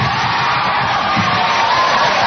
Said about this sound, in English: A crowd in Vancouver watching the announcement via satellite burst into loud cheers